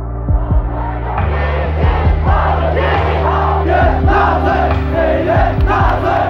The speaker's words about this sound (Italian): Quelle che sentite sono le proteste dei cinesi di fronte all'ambasciata americana nel maggio del 1999, esattamente 25 anni fa. i manifestanti stanno urlando: NATO Nazi, cioè Alleanza Atlantica Nazista.